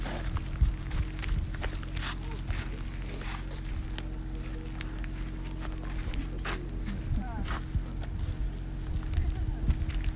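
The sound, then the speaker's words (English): Footsteps of people walking up to an earthquake fault line at a crystal mine: many steady steps on rough ground, with a low murmur of voices in the background. “We're walking up to the fault line of the earthquake.”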